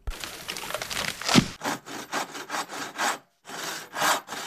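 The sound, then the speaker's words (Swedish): Handsaw strokes cut through wood, first a dense continuous rasp, then many separate rhythmic back-and-forth strokes with brief pauses between them, loud and alone. “Vi är mitt i sågandet nu”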